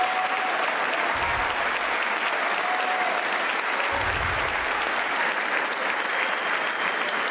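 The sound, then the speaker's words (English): Crowd cheering and applauding in a played video, a dense, loud wash of clapping that holds steady for the whole stretch with no letup. “Crowd going ape shit.”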